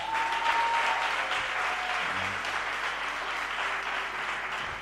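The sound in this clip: A church audience applauds in acclamation of Jesus. The clapping is soft but steady and continuous, tapering slightly toward the end.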